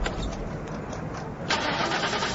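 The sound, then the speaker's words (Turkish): A car engine cranks on its starter but fails to start, with a weak battery stated as the fault. The grinding crank runs continuously and grows louder and brighter about halfway through. “Ben arabaya binip marşa basayım, bakayım çalışacak mı?”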